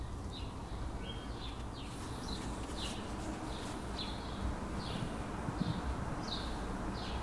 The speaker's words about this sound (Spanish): Pero qué maravilla, ¿no? Se oyen pájaros.